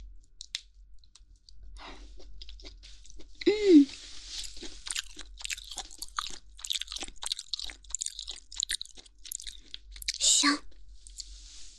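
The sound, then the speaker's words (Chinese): Crunchy chewing of lean chicken muscle meat, with many irregular bites and wet mastication clicks spread throughout, and stronger crunching bursts near the start of the second third and again close to the end. “果然是肌肉的部分最好吃，听说吃鸡肉还不会长胖哦，全是蛋白质。”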